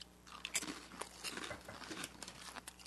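Crisp crunching and chewing of a black-pepper rice cracker made by a company in Saitama. Several quiet bites and crackling crunches follow one another, with no talk.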